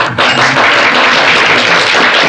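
An audience at a church service applauds with dense, loud, continuous clapping that holds steadily for the full stretch and blends into a wash of sound.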